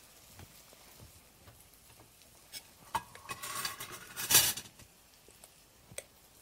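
Faint clinks, taps and scrapes of plates and utensils as cooked eggplant is served, with scattered light clicks and a busier, rustling stretch of handling near the middle, with no talking.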